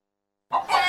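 Chickens on a farm at feeding time, loud clucking and squawking that bursts in abruptly after half a second of silence and continues to the end.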